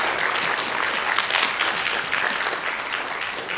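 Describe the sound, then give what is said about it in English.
Audience applause at a church service: many people clapping loudly and steadily, a dense, continuous patter that holds through the whole clip without a break. “let's give him a big hand.”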